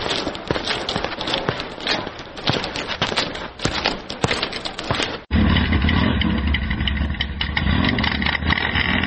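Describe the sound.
Motorcycle engine running, a rough, noisy rattle that switches abruptly midway to a steadier, low, droning rumble, loud throughout with no voices.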